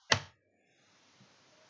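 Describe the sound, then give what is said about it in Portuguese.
A single sharp click of the Enter key being pressed on a computer keyboard, followed by near silence with a faint soft tap. “Vamos dar um enter.”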